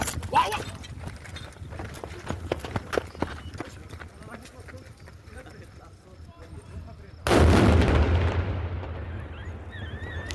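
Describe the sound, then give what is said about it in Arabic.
A controlled detonation of leftover war explosives in Sahnaya, Syria, found in a waste container, bursts out as one sudden loud blast after several seconds of voices and background noise, then fades in a rumbling decay. “أفاد مراسل تلفزيون سوريا بوقوع انفجار في مدينة صحنايا بمحافظة ريف دمشق، وأوضح مصدر أمني أن الانفجار في صحنايا ناتج عن تفجير الجهات المختصة لمخلفات حرب كانت في المنطقة.”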